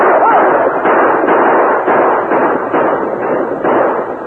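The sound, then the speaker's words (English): Gunfire from riders' guns as point riders and mounted fighters charge a gang on an open plain near a cattle herd: a loud, dense barrage of shots blending into a steady roar, with no pauses or talk. “Then the point riders and the Indians rode with blazing guns to face the Corey gang”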